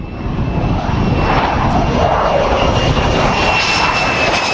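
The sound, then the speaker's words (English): An unmanned jet drone lands on an aircraft carrier deck, making a loud continuous engine roar with a thin, steady high whine riding above it and no breaks throughout. “Here it is in its final stages of testing last November, landing on the deck of the aircraft carrier USS Nimitz.”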